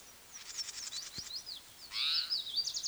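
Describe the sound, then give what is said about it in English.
Bird calls: quick series of thin, high chirps, then a louder, fuller burst near the end, all fairly faint over a quiet background. “The cry is possibly by another bird.”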